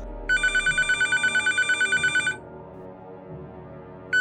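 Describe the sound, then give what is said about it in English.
A satellite phone rings with a rapid electronic pulsed trill that lasts about two seconds. A pause with a low hum follows, then the next ring begins. “Who's ringing? It's the satellite phone.”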